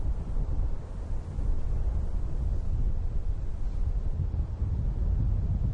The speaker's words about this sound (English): The wind is getting chilly in the grasslands.